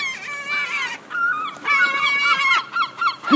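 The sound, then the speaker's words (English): Seagulls call by the water in the morning with many overlapping harsh, squealing cries that glide in pitch and continue almost without a break. “There's so many seagulls down here, it's cool. There's like, there must be about 30 seagulls around here in the morning.”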